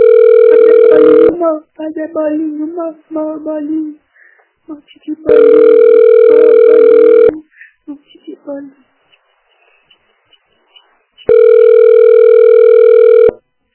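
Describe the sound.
Ringing tone on a phone call to a health clinic, three long, loud, steady beeps separated by gaps in which a voice talks.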